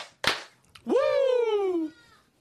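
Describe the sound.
Two hand claps, the first sharp and loud and the second quicker and fainter, followed by a long whooping voice that slides steadily down in pitch before trailing off.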